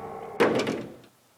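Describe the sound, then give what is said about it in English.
A door closing on whining hinges, one brief burst of sound that starts abruptly and fades out within about half a second, heard alone. “the captor flowed back through the doorway, the hinges whining as the door closed.”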